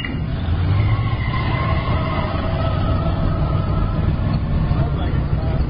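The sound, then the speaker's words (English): Engine rumble of a test vehicle driving off for a hill climb, a loud, continuous low drone with a steady mechanical hum that holds level from start to finish. “Vehicle 1 is clear for hill climb. Okay, let's go.”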